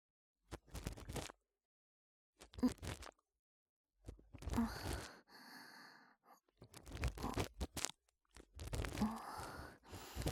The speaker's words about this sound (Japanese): それでは、お耳掃除の方、始めさせていただきますね。まずは、浅いところに見えている耳垢から書き出してまいります。